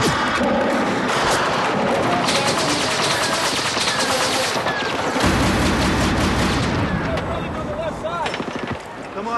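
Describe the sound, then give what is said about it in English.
Heavy automatic gunfire crackles and booms in a firefight as soldiers come under fire, dense, loud, nearly continuous bursts of shots throughout, with voices heard amid the shooting. “You want to play? They're shooting at me.”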